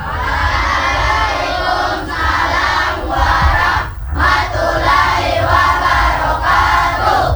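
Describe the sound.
A crowd of children shouts with enthusiasm at a morning greeting, a loud, sustained wall of young voices in unison that dips briefly once midway and then surges back.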